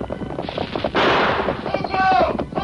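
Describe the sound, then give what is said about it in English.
A Colt revolver gunshot effect cracks out as one loud, broad blast about a second in, then rings on. Busier sound sits underneath before and after. “An answering shot from the masked man's Colts broke the chief's gun stock.”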